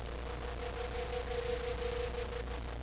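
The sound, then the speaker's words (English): Radio drama effect for a star drive spaceship: an even, low engine-like hum with a sustained tonal whine running steadily throughout, no sudden surge. “Let's get to the spaceport and blast off in the star drive.”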